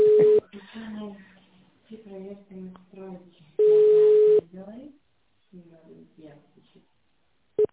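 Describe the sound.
Telephone line tone while a call connects: a few steady, mid-pitched beeps, two long and one short at the end, with voices talking in the gaps between them.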